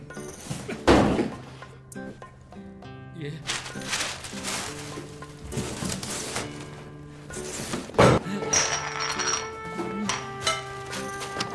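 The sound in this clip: A heavy box is carried and set down with dull thumps and knocks, including a loud thud early on and another heavy knock later. Light clinks and rattles sound between them.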